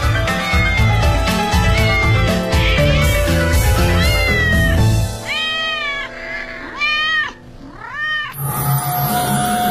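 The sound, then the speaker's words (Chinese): Cats living in a historic palace complex in Beijing meowing: several drawn-out, wailing meows that rise and fall in pitch, loud and clear, following a dense, busy stretch of background sound. “就连单院长都夸他们，故宫里的猫是有尊严的活着。”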